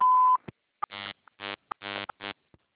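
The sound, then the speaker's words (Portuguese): A single short, steady electronic beep from a phone system's digital answering line, the signal to dial an extension, followed by several brief tonal bursts. “Atendimento digital. Após o sinal, digite o ramal ou aguarde.”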